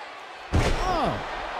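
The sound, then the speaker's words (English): In a pro wrestling match, Scott Hall's fall-away slam lands as a single loud, heavy thud, followed by a sustained noisy roar that holds steady and slowly eases for the rest of the moment. “Yeah, Scott Hall hits him with the follow-away slam.”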